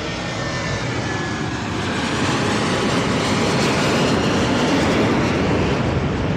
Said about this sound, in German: Alle paar Minuten eins. Jetzt fliegt gerade ein sehr schön gestreiftes Flugzeug über uns.